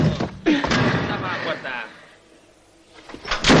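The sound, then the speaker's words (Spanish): A prison cell door slammed shut with loud, heavy banging thuds, set among angry shouting voices. “Los compañeros de El Texas le echan de la celda empujones y cierran la puerta.”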